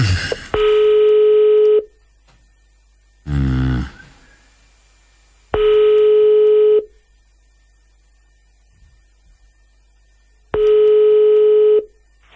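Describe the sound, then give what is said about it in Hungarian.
Ringing tones of an outgoing call placed by a radio morning show to a listener: three long, steady, mid-pitched electronic tones spaced evenly about five seconds apart, with one brief, different burst of sound between the first two. “Hívjuk a naphallgatóját, aztán elbúcsúzunk.”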